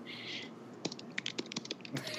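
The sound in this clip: A web address typed on a computer keyboard: a faint, quick run of uneven key clicks.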